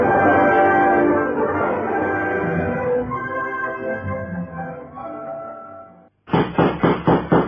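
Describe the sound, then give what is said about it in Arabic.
Knocking on a door in an Egyptian dramatic scene: a quick run of several sharp, evenly spaced raps that starts abruptly after a brief silence, following a long, loud, dense passage of other sound. “مين مين اللي بيخبط؟”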